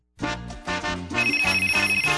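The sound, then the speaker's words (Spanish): An electronic telephone ring rises out of silence as a bright, tuneful tone that steps through short repeated notes, steady and fairly loud throughout. “Aquí está el esperado concurso de Radio Martí. Siempre tempranito, ring, ring. Óyelo sonando. Ring, ring.”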